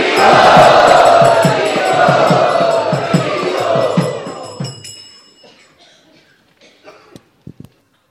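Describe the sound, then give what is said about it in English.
An audience at a gathering in Bombay loudly chants a welcome in a fast, regular rhythm for about five seconds. The chant then fades to near silence, followed by a few faint knocks. “So let us welcome both of them by loudly chanting.”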